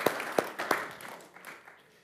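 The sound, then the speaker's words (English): Audience applause during a talk about Northeast Ohio: a few sharp claps at the start, then fainter scattered clapping that thins out and fades. “give Cleveland a round of applause.”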